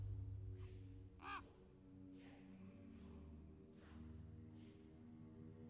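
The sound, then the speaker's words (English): A raven caws once in a Curse of Strahd Dungeons & Dragons scene, giving a harsh, rasping call that stands out over a steady low hum, with only faint traces of other sounds around it. “And a raven looks at her and starts to caw.”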